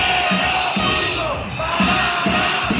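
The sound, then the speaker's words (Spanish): Hundreds of teachers, families and students protest for public schools, a loud, dense crowd chanting and shouting together in a continuous roar with rhythmic swells of voices. “Es el sonido de centenares de personas, entre docentes, familias y alumnos, que piden dinero público para la pública.”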